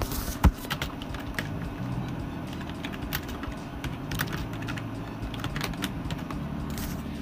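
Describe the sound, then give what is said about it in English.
Typing on a computer keyboard, many quick irregular clicks and taps in uneven bursts over a low, steady background hum. “Oh, it refuses to accept. Okay, let me type it ha for a moment.”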